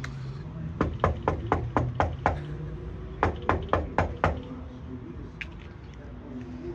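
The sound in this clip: Knocking on a door: two quick bursts of sharp, fairly loud raps, the second burst shorter, followed by a few fainter taps.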